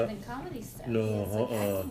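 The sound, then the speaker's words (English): Dishes clink and rattle as someone washes up, faint beneath a person talking throughout. “I'm doing some dishes. I'm not really good at this.”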